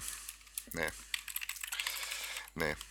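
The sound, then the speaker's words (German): Clicking and key taps on a computer while opening a web page: many quick, light clicks in an uneven run, with a couple of brief bits of speech. “Ich gehe mal ganz kurz hier, ich klicke da mal ganz kurz rein”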